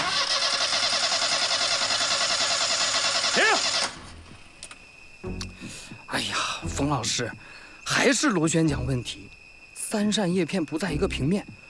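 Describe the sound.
A repaired propeller engine runs during a trial start, a loud, even, droning hum that holds steady for about four seconds and then cuts off, after which several people talk.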